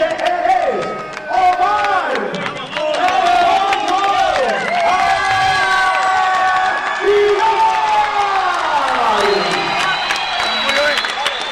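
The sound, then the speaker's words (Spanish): Boxing crowd in Tijuana cheering for Omar El Pollo Aguilar of Ensenada as he is introduced, a loud sustained roar full of whistles and whoops with some clapping mixed in throughout. “Ahí está la respuesta del público aquí en Tijuana para recibir al de la población vecina Ensenada, Omar El Pollo Aguilar.”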